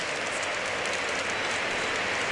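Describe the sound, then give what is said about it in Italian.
Football crowd applauding Rodrigo Palacio as he leaves the pitch during a match: a dense, continuous hiss of clapping from the stands, steady and even in level throughout. “Gli applausi anche per Don Rodrigo. Dentro Biabiani. Secondo cambio di vita, credo, sì. Applaudire Don Rodrigo Palacio, che risponde all'applauso del pubblico.”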